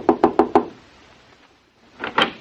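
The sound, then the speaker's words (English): Knuckles rap on a hotel room door: four quick, firm knocks in a row, a short pause, then two more knocks. “I'll knock on the door.”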